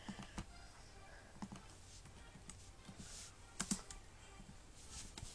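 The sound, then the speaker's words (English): Faint computer keyboard typing as someone re-enters a fraction calculation: scattered, irregular key clicks with short gaps and a couple of slightly louder taps. “I'm gonna have to just type it again.”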